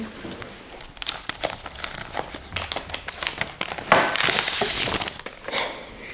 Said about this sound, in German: Also was ich jetzt rausgeholt habe, ist meine Patientenakte aus dem Klinikum